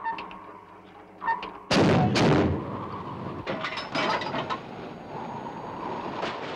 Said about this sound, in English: A depth charge is dropped from the stern. The arrow on the button points straight up. Behind the ship, the sea explodes.